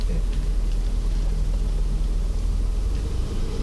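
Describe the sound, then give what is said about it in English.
A car rumbles steadily as it pulls over on Central Park South, a city street in New York. The low engine and road drone stays constant and fairly loud throughout, with no clear change in speed. “I'm gonna go on Center Park South and pull over. Up here.”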